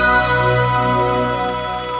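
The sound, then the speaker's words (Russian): A phone ringtone sounds as an expert is called, a steady, fairly loud electronic tone that plays on without a break for about two seconds, with no talk over it. “Звонок эксперту на радиомарафон.”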